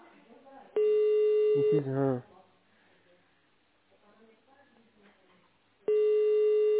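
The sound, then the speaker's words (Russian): Ringback tone of an unanswered telephone call, heard over a narrow phone line: two long, steady beeps separated by a pause of about four seconds, with a brief voice just after the first beep. “Не поднимает он телефон.”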